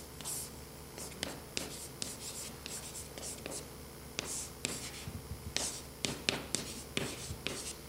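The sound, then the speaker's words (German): Handwriting with a pen, made while notes are jotted down during a programming lesson: many quick, scratchy strokes and taps in an irregular rhythm, fairly faint over a low steady hum. “Vielleicht schreibe ich das mal hier auf.”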